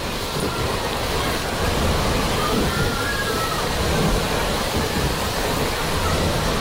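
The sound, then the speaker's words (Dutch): Steady rushing, sloshing water from a wave pool, sounding much like the sea: a continuous broad wash that stays at an even loudness throughout, with no voices. “Ja, het lijkt een beetje meer op de zee, hè? Maar jij wilde een golfslagbad.”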